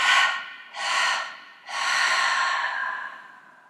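Deep breathing during a guided chakra meditation: three slow, airy breaths, the first two shorter and the third long and drawn out as it fades.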